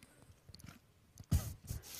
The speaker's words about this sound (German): ich muss kurz was trinken.